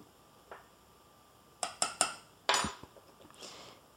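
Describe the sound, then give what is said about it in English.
A spatula knocks and scrapes against a bowl while vanilla is stirred into hot custard for frozen custard. One faint tap comes first, then a quick cluster of sharper clinks and scrapes, all fairly quiet. “If you're using single vanilla or vanilla paste, I would recommend 3 to 4 teaspoons. More vanilla flavor is better. Gently stir that in with your spatula.”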